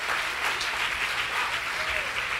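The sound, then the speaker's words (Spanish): Audience applause during a church sermon, given in praise to God: a dense, steady wash of clapping that holds at an even level throughout, with no clear break or build. “Si le va a dar el aplauso al Señor.”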